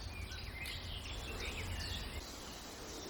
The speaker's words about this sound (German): Mit Ausnahme dieser Spechtaufregung, was aber, glaube ich, eher mit den Jungvögeln zu tun hat oder mit den Jungspechten, die trainieren,